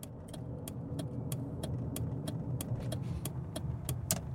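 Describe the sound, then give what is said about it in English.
A car driving on the road on a morning commute to work, with a steady low engine and road rumble carrying a regular, light ticking throughout and no voices. “It is 7:27 a.m., and I am currently driving to work.”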